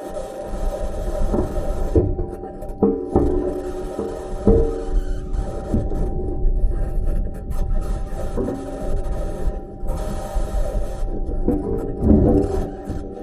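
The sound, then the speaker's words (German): A Mars rover driving across the terrain, picked up by its onboard microphone: steady harsh grinding and scraping over a low rumble, broken by irregular squeaks, knocks and rattles throughout. No voices. “Und was Percy Mars Rover gemacht hat, der hat jetzt einige Minuten Material zurückgeschickt, von was er so aufnimmt, während er durch die Gegend fährt. Und das hört sich ungefähr so an.”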